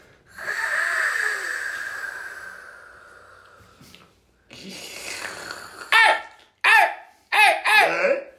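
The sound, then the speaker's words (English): A long, rasping deep breath drawn in over a few seconds, followed by short, loud snorting and laughing bursts. “I just want you to take a nice deep breath in. Seriously, don't overthink it. A nice deep breath in.”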